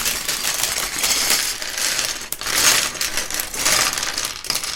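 Lego pieces rattle inside a plastic bag in a dense, continuous clatter of small hard plastic bits with a few brief dips. No one speaks.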